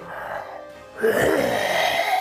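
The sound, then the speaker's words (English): A human voice imitates a hellhound breathing in: a low, breathy moan swells suddenly into a louder, raspy, drawn-out inhale that carries on to the end. “The one in front of you, Siki, breathes in”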